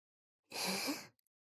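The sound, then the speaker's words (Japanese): A single soft, breathy blow into the listener's ear lasts just over half a second, then a couple of faint clicks follow in near silence. “もっとふうふうしてやろうか。”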